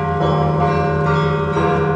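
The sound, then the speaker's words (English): Church bells toll outside in Sviatogorsk, loud metallic ringing that overlaps continuously, with a few fresh strikes renewing the clang. “Outside, the bells start to toll, and you almost expect something joyous, like Easter time.”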